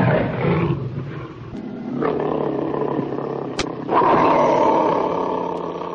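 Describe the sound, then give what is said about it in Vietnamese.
A tiger roaring as a story sound effect, the animal trapped at the bottom of a well: loud, rough, sustained growling roars that swell and fade, with a sharp click midway and a louder roar toward the end. “Cọp tuyệt vọng kêu cứu.”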